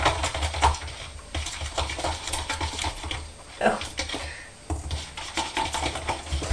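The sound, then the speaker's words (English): A spoon stirs a sugary mixture in a bowl, giving irregular scraping, rubbing and light clinking sounds that come and go in uneven bursts. “Can you see it? It's mixed. You have a go at mixing. Mix it up”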